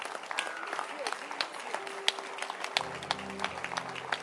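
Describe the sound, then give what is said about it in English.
A church audience clapping their hands: scattered, fairly faint claps in an uneven, steady patter across the whole stretch. “Clap your hands.”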